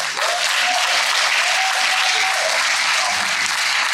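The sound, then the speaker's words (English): Audience applause for an honoree, a dense, unbroken wash of clapping from many hands that stays loud and even for several seconds. “Congratulations. Thank you. Give him a hand.”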